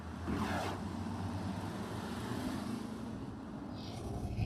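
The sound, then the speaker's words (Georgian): A free city bus drives through Vancouver, with a steady engine and road rumble that holds a constant low drone throughout and brief hissing swells. “სრულიად უფასო ავტობუსი წამიყვანს.”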